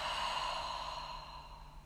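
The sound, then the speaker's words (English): A soft, breathy exhale through the mouth: one continuous airy whoosh lasting about two seconds, quiet, tapering slightly toward the end, with no talk over it. “breathe in through your nose and to your stomach. And out through your mouth.”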